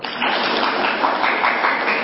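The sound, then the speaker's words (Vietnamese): Applause from the audience at a Buddhist monk's lecture, a sustained, even roar of many hands clapping that starts abruptly and holds steady. “Vỗ tay.”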